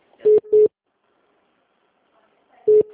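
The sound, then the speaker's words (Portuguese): Telephone busy signal on a transferred office call: three short, steady mid-pitched beeps, two close together, then a pause before the third. “Oi, tá ocupado o ramal dela?”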